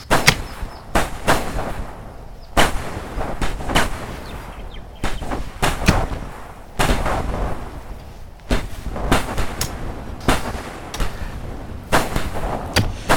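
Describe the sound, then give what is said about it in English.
Guns fire on command in a long, irregular series of loud, sharp bangs. Each blast is followed by a brief rumbling tail. “Stand by to fire your guns, boys. Ready? Fire!”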